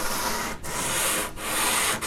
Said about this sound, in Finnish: Sulla on seuraavaksi tässä siis tämän ikkunapokan hiominen vuorossa.